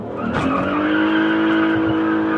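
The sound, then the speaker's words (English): A Mitsubishi drag race car spins its tires after running them through the water pit to warm them. A loud, sustained tire screech rides over a steady engine roar without a break. “We're going to run the tires through the water pit. And then we're going to warm them up. Try and get them sticky.”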